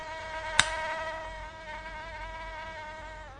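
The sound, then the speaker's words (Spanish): A mosquito whines in a steady, thin, high-pitched buzz that holds its tone throughout, with one sharp click early on. No voices are heard. “Y otro mosquito. Y otro. Y otro mosquito.”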